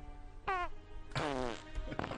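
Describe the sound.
Fart sound effects from an old sound effects CD: a short, buzzy, rubbery blast, then a longer and louder sputtering one that wobbles in pitch. Both are faint overall.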